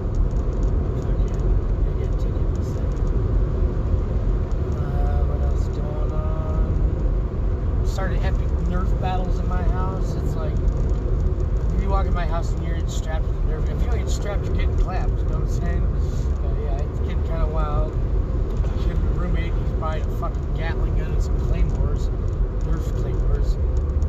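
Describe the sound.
Continuous low rumble of road noise inside a moving car used as a mobile studio, steady for the whole stretch while a voice talks over it.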